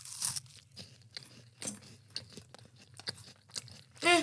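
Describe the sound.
Crunchy bites and chewing on a Hungarian chocolate wafer snack: many brittle, irregular crackles and snaps, fairly faint, with a sharper crunch near the end.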